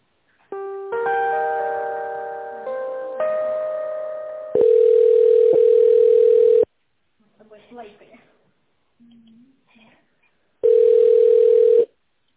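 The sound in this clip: Telephone tones while an office call is being transferred: a stepped electronic melody of sustained notes, then a long steady buzzing tone, a short gap with faint voice, and the same steady tone again near the end.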